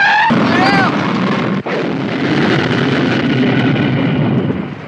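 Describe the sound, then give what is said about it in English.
Roaring blast of a flamethrower destroying a car, a loud sustained rushing roar with explosive force, broken by one sharp crack partway through, then rumbling on and easing slightly at the end. “This time by a flamethrower that completely destroys their not General Lee.”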